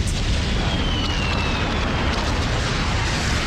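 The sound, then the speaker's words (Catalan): A bomb explodes nearby during a bombardment: a loud, sustained rumbling roar that stays steady and unbroken for the whole stretch, with no voices. “Sense temps per trobar un lloc on amagar-se, una bomba cau al costat de la nostra amiga.”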